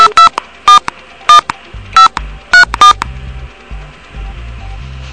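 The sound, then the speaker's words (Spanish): Touch-tone telephone dialing a number: a series of short, bright beeping tones in an uneven rhythm, followed by quieter low-pitched background noise. “Estamos llamando. Llamado al 1. Vamos a llamar nuevamente.”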